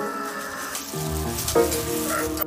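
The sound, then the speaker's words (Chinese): Cured pork filled rolls pan-fry over low heat with a steady, gentle sizzle. Soft music with changing notes plays over the frying. “在回炉重造，小火煎至饼皮微微焦黄，饱满的内馅呼之欲出。”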